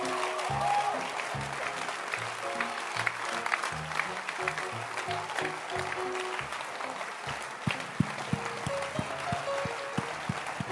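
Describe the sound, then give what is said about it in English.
Audience applause for a church choir: dense, steady clapping that lasts the full stretch, moderately loud, with a few sharper claps standing out and some low tonal sound beneath. “So let's clap our hands for the amazing Sontes.”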